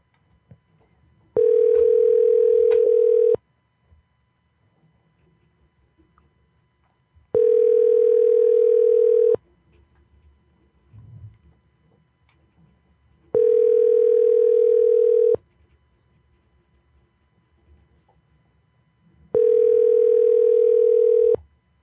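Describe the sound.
Ringback tone of an outgoing telephone call: four steady, even tone bursts, each about two seconds long, separated by roughly four-second gaps of near silence with faint background noises.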